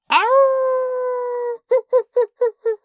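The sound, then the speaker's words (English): A wolf gives a long howl that rises quickly and holds a steady pitch for about a second and a half. Six short, clipped yips follow in a quick, even rhythm. “That sounds, the first part sounds like a traditional wolf sound.”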